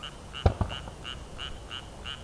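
A frog croaks in a steady, regular series of short, high-pitched calls, quiet and evenly spaced, with two brief low thumps early on.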